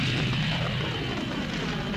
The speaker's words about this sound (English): The Millennium Falcon ignited its ion engine, and raced off through the train of drifting space junk toward another system.